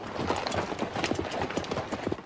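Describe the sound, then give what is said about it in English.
Cavalry horses clip-clop out from the trees onto a rocky riverbank, a steady stream of many irregular hoof strikes on stone at moderate loudness. “At the signal, the Yankee troopers move their horses out of the cover of the trees and onto the rocky shore.”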